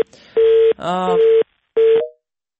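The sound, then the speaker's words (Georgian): Telephone tones after a call is cut off: three steady single-pitch beeps separated by short gaps, loud and clean with no voices. “საუბარი შეწყდა იმის გამო რომ შეწყდა კავშირი”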